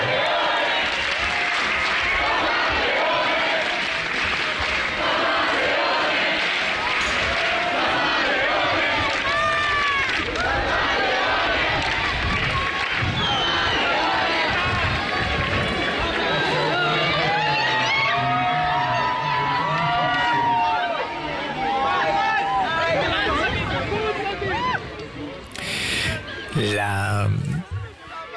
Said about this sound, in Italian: L'accoglienza alle parole del Santo Padre, come sentite, appunto, è stata entusiastica anche da parte di tutti coloro che sono riuniti